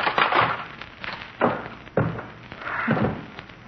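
Wooden log being snapped in half by hand in an old-time radio drama, a few dull thumps and splintering cracks spaced unevenly, with rustling wood between them.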